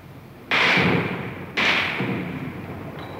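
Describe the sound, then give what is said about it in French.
Machine-gun bullets strike a wall during a tank assault near a hotel: two loud, sharp cracks about a second apart, each trailing off in a long decaying rumble. “Il tire à la mitraille, vous entendez les balles qui claquent contre le mur.”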